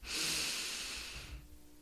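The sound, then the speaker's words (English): One long, deep inhale during a guided breathing exercise: a soft, airy hiss that holds steady for over a second and then fades to quiet. “Breathe in.”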